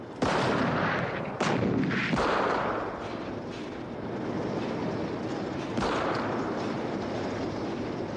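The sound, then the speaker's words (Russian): Heavy gunfire and explosions as anti-tank crews fire and tank shells burst near trenches in a battle, with four loud, sharp blasts over a continuous rumbling din of combat. “Выпущенные танками снаряды рвутся в нескольких десятках метров от окопов. Поднявшаяся бурая пыль ухудшает видимость. Бронебойные расчеты открывают огонь.”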